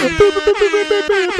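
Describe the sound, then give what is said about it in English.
Air horn sound effect: a run of brassy, steady-pitched blasts that sound loud and close together, with no voices. “Oh, I'm putting so much air horn in post.”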